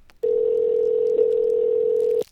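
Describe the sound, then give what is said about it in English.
A telephone tone sounds during a call as a single steady electronic note. It holds one constant pitch for about two seconds, loud and alone, then cuts off abruptly. “What's that phone ringing for?”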